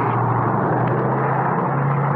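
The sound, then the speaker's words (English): Engines drone steadily on a C-124 aircraft flying blind through ice fog on final approach with its gear down, a dense, even, continuous roar over a low steady hum that holds without a break. “Our C-124 is flying totally blind through a treacherous ice-fogged”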